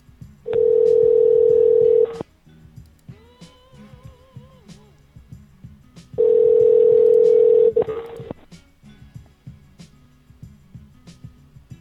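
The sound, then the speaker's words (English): Telephone line tones while a call is placed to a Sprint number: two long, steady mid-pitched tones of about two seconds each, split by a pause that holds fainter wavering tones. “I know who I was going to call first.”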